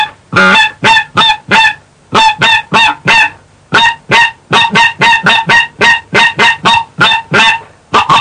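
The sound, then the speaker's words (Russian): A hunter's goose call imitates geese to lure a passing flock to land, blowing many loud, rapid honks in an urgent, energetic rhythm, grouped in bursts with two short pauses. “Более взволнованное обращение к пролетающей стае с приглашением сесть, не пренебречь, не отказаться, в более энергичном темпе, более взволнованно.”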